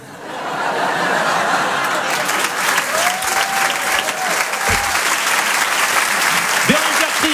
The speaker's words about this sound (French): On peut l'applaudir très fort.